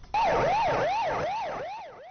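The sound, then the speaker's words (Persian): A fire engine siren in Iran wails up and down in repeated regular cycles, loud at first and slowly easing in level toward the end. “آژیر آتش‌نشانی‌ها این روزها ایران را فرا گرفته است.”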